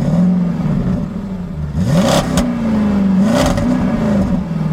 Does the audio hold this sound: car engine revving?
yes